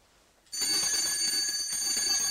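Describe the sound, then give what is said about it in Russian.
An electric school bell rings at the end of a break, starting abruptly and continuing as a loud, steady, high-pitched ring until the end, with no voices. “Кончилась перемена. Учителя, у кого есть шестой урок, расходятся по классам. Звонок, товарищ.”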